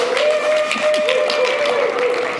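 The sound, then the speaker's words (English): Audience applause welcoming a speaker onto a stage: steady, dense clapping that runs for the whole short stretch at an even level. “I want you to put together your hands and welcome the man.”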